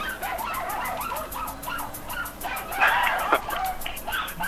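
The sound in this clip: A very small dog in a studio gives high, wavering whines and yelps that run on with little pause for several seconds.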